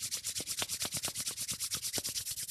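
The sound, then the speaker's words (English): Palms rubbing briskly together to build heat make soft, papery swishes. Many quick, evenly spaced strokes keep a steady back-and-forth rhythm, faint and alone. “And then rub your hands together, create some heat.”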